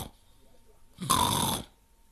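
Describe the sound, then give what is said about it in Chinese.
A person sitting on a doorstep pretends to snore, with a single loud, rough, snorting snore in the middle of an otherwise quiet stretch. “小雨墨坐在门槛上，也装着打呼噜”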